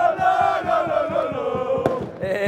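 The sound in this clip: A large crowd celebrates AGF's first Danish football championship in 40 years on a street in Aarhus, many voices loudly singing and chanting together in a continuous din, with one sharp crack partway through.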